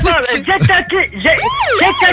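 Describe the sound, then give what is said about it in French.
A police siren sound effect wails loudly, its tone sweeping up and down in pitch, choppy and pulsing at first and then settling into long, smooth rising and falling wails. “Tu peux me mettre une sirène de police?”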